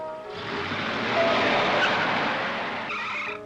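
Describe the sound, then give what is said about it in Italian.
A car brakes hard and skids off the road, its tires letting out a loud screech that lasts about three seconds, swelling in the middle before easing off. “Niente, stavo uscendo di strada, ho frenato.”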